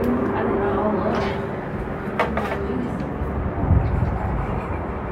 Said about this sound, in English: Look, helicopter. Or something, I guess, I hear. That's an airplane.